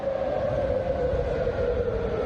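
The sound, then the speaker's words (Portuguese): A siren sounds at a US military base in Kuwait. It holds one sustained mid-pitched wailing tone, loud and even from start to finish, with no voices heard. “disparou nesta madrugada contra uma base militar dos Estados Unidos no Kuwait, onde as sirenes soaram.”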